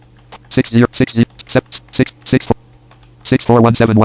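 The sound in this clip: Keys clatter on a computer keyboard as a phone number is typed into a conference-call entry form and the tab key is pressed. Many quick clicks sit under a voice speaking.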